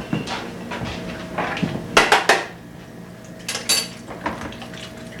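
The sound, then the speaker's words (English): A plastic, lightweight mixing bowl being handled in a kitchen, giving a few light knocks and clatters in short bursts, with quieter handling noise between them. “That's a nice mixing bowl. Yeah, that's good, isn't it? I like it because it's plastic and it's lightweight”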